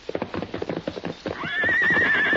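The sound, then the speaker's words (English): Horse hooves clop in a quick, uneven run of hoofbeats, then a long, high, wavering whinny rises and holds through the final second. “What is it, fellow? Come on, then. I'll walk to the corral with you. Look. Silver see colt.”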